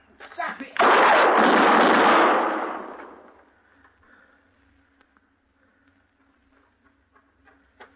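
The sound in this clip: Gunshots ring out in a western radio drama: a short, sharp crack, then a loud blast whose long, rumbling tail fades over a few seconds into near silence.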